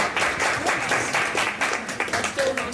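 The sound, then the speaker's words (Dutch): Applause from supporters greets a lawyer in the hall of a courthouse after a hearing. Many hands clap in a dense, steady patter throughout, with some voices mixed in. “advocaat Lisbeth Zegveld wordt na de zitting door haar achterban met applaus onthaald in de hal van de rechtbank.”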